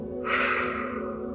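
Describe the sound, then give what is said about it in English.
One deep breath drawn during a calming breathing exercise, heard as a long, airy rush of air that begins abruptly and holds steady, soft and alone with no talk. “Breathe in and out. Breathe in and out.”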